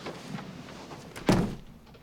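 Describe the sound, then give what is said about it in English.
A door closed by a man carrying a large holdall into a room, heard as a single muffled thud over faint background hiss. “swings a large holdall off his shoulder and closes the door.”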